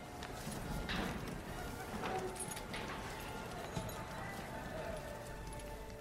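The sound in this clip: Horse hooves clip-clop steadily as a rider arrives on horseback, the hoofbeats sitting inside a dense, busy wash of background noise that stays loud throughout.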